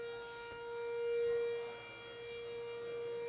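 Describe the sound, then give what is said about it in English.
A faint emergency siren wails from the firehouse and ambulance station right next door. Its steady tone swells briefly, then eases back and holds on. “I'm sure you can hear it. The speakers or the mics have to be picking it up. We are right next to a firehouse and ambulance house. So right now, some people are in need of help.”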